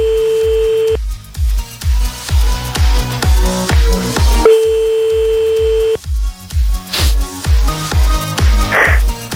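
Ringback of an unanswered telephone call: two long, steady tones a few seconds apart, heard over loud rhythmic music with a pulsing beat.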